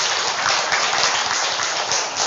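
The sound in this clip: Applause from a quiz audience, a steady dense wash of clapping that fills the whole clip at an even, fairly loud level with no voices over it.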